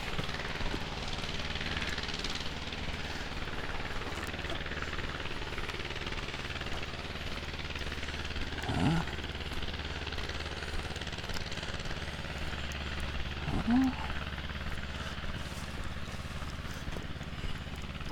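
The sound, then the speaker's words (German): Steady, low chugging rumble of a Hanomag tractor driving along a street, a continuous engine drone at moderate level with two brief, higher chirps rising over it. “Ein Hanomag-Trecker, der hier unten die Horbstraße langfährt.”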